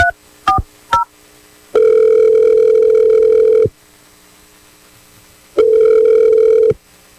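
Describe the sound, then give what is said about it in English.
A telephone dials with three short, quick tones, then sounds two long, steady ringing tones separated by a pause. “let's dial her number right now. We'll figure out what she has to say. All right, great. Hopefully she picks up”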